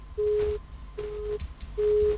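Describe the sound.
Disconnect tone after a telephone call is cut off: three steady, mid-pitched beeps, each about half a second long, separated by short silent gaps, with no talk.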